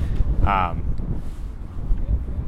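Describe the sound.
Outdoor wind buffets the microphone as a low, continuous rumble with gusty swells. A brief voice cuts in early on.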